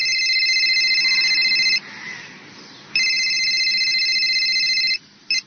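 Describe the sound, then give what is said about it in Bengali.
A phone rings at dawn with a high, bright electronic warble in two long bursts separated by a short pause, then a third burst cut off almost at once. No voices are heard. “ভোরবেলা ঘুম ভাঙে constable রমজানের phone পেয়ে।”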